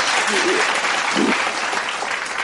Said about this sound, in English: can we just take a moment to applaud the outgoing U.S. ambassador to the U.N., Nikki Haley?